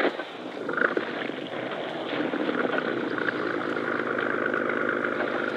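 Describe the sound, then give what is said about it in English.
A boat motor runs with a steady, low, throbbing drone that holds at an even loudness throughout, with some wind noise over it. “Start the motor up again.”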